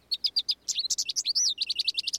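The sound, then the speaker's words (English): House finch and American goldfinch songs in a North American city: rapid runs of sweet, high chirping notes with a warbling, sliding phrase in the middle, followed by more quick, evenly spaced chirps, clear and alone. “The songs of two common finches provide a steady soundtrack in cities across North America. There's the house finch and the American goldfinch.”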